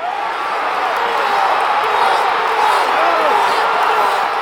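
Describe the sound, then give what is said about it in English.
A stadium crowd of about 75,000 roars as a Panthers running back breaks the first play from scrimmage for a 59-yard run, a loud, sustained wall of cheering that swells slightly without letting up. “That's the sound of roughly 75,000 people losing their minds when Panthers running back Jonathan Stewart broke the first play from scrimmage for 59 yards.”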